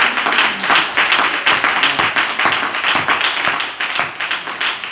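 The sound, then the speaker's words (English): A church audience claps hands at a Wednesday evening service, with loud, dense clapping in a brisk, steady flurry that stays strong throughout. “So why don't we put our hands together a little bit better than that? Come on, let's all put our hands together.”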